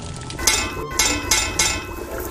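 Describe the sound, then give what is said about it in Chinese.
Sharp metallic knocks on the rim of a hanging cooking pot of sour-soup fish: four crisp, clinking strikes at uneven intervals over a steady low background hum. “您最后敲两下这个锅边是什么意思？”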